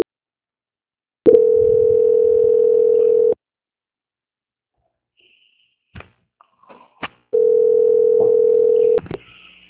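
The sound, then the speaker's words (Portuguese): Two long, steady, mid-pitched beeps sound on a telephone line while a customer call is transferred to a quality-control department, separated by a silent gap with a few faint clicks and line noises. “peço que o senhor aguarde na linha que eu vou transferir o seu contato para o controle de qualidade”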